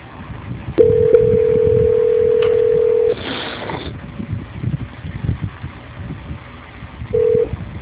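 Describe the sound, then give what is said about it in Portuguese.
Telephone tones play while a call is being transferred: a long, steady tone lasts about two seconds, then after a quiet gap a second, much shorter tone sounds, over a low background hiss. “Só um minuto, por favor, que eu vou transferir a sua ligação. Transferência.”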